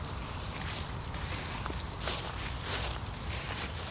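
Footsteps walk through a park, soft and steady on the ground, faint under a constant outdoor hiss throughout.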